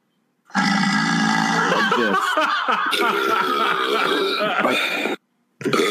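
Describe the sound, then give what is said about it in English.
A canned fake burp sound effect: one long, loud, croaking belch with a rough, throaty, gurgling texture, sustained for several seconds. It cuts off and a second burp starts right at the end. “I'm just looking on YouTube, burp sound effect.”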